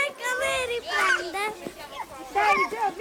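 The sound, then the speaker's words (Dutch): Toddlers playing outside on the grass around a simple rectangular building at the edge of a village, their high children's voices chattering, calling and squealing in overlapping bursts. “Want de zon schijnt hier regelmatig, dus zelfs de jongste peuters kunnen de meeste tijd lekker buiten spelen.”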